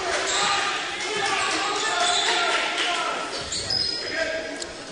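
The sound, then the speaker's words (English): A basketball is dribbled on the court during a game. Soft bounces sit under steady crowd noise while a commentator talks over them. “now dribbling in and losing the ball out of bounds is LCC”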